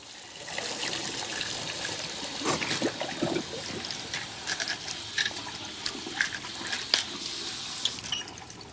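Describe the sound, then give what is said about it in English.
Water bubbling in a basin while a tap drips, heard as a steady trickling wash with scattered small drip ticks throughout and no voices. “Water bubbles in the basin. The tap drips.”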